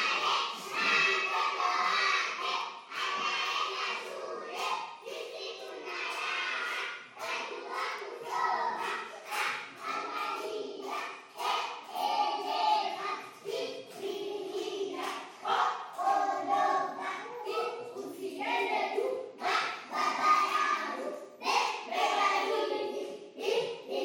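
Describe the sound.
Children chant in rhythm and clap steadily in welcome at an early child development centre, a nursery school. The voices and sharp, evenly paced claps continue loudly throughout.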